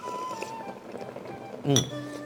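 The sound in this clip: A ladle clinks once sharply against a bowl while fish-head hot pot soup is served, the bright metallic ring standing out over a quiet background and fading slowly.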